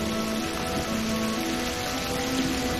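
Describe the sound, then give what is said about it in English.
Steady rain falls during a storm, a continuous even hiss with faint sustained tones beneath it and no voices. “Clark Davis rides through the rain, calling out. Back in town, thunder and lightning usher in the raging storm.”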